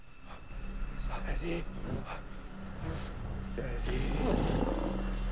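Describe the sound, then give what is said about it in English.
A monkey snarls at close range from a tree above a clearing, giving harsh, breathy bursts over a steady low rumble. The bursts vary in loudness, and a louder growling stretch comes near the end. “The monkey comes face to face with the upside-down Beck and snarls.”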